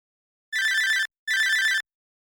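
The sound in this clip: A telephone rings twice while calling a maintenance company, two even electronic bursts of about half a second each separated by a short gap, with silence before and after.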